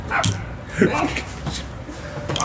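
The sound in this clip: A dog gives a few short yips and whimpers, faint and partly masked by people talking nearby.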